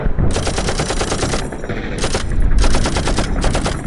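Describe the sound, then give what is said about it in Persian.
Heavy machine-gun fire from a battle at Shalamcheh under heavy enemy fire, a war drama sound effect: dense, rapid automatic bursts rattle continuously and loudly, with brief breaks between volleys and a heavy low rumble beneath. “شلمچه زیر آتیش سنگین دشمن بود.”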